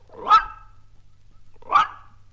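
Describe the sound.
A dog gives two short, sharp barks, spaced well over a second apart, each a brief burst with quiet between them.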